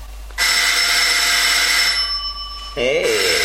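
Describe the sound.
A telephone rings with a bright, sustained electronic ring of several layered tones that holds steady for over two seconds, loud and uninterrupted.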